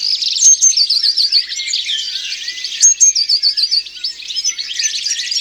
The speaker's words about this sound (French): La mésange bleue est très vive et pleine d'énergie. Toujours en mouvement dans les arbres. Mésange bleue.